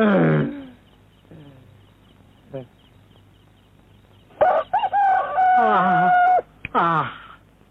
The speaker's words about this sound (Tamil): காலம் ரொம்ப கெட்டு போச்சு. மனுஷன் தான் 8 மணிக்கு எழுந்திருக்கிறான்னா, சேவல் கூட 7 மணிக்கு தான் எழுந்துச்சு கூவுது.